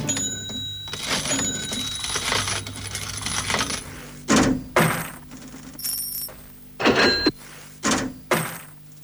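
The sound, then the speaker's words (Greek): A cash register opens and coins fall, starting with a dense, continuous jingle of clinking money, then giving way to a string of sharp, loud metallic clunks spaced irregularly. “Να ανοίγει αυτή η ταμιακή μηχανή και να πέφτουν τα λεφτά.”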